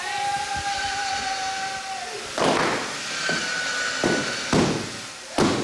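Helium balloons hung on a string are burst one after another by a spinning circular saw. A few sharp, loud bangs cut through a continuous whining hum and rumble.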